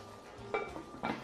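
A lid is set on a cooking pot after salt and a drop of oil go over the food. It lands with two quick, quiet metallic clinks about half a second apart, with no talk.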